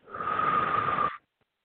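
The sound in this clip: A single deep breath out, a steady airy rush of breath that swells quickly and holds for about a second before stopping abruptly into silence.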